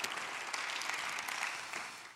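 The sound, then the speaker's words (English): A church audience applauding to welcome a pastor to preach: steady, dense clapping that holds at an even level throughout. “And so would you put your hands together?”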